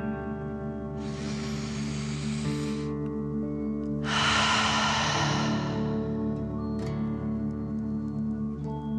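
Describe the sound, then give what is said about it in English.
A slow breath in lasting about two seconds is followed by a louder, breathy exhale through the mouth, set over soft, steady musical tones, with a brief faint breath near the end. “breathe out, pretending fire is coming out of your mouth. Ready? Breathe in and out.”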